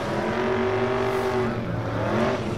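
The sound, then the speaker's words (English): Steady car engine drone on the road, a low hum with sustained tones, holding an even, fairly loud level throughout without any voices. “It looks like it's some kind of Falcon or something. Oh, look at that car on the left, kiddos.”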